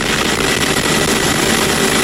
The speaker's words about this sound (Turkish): Türk yangın söndürme uçakları Avrupa semalarında.